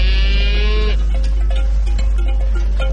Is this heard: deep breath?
no